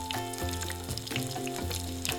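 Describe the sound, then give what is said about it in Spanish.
Freshly made dough balls frying in very hot oil, a steady crackling sizzle that continues without pause. “Freímos estas bolas que acabamos de hacer con el aceite bien caliente.”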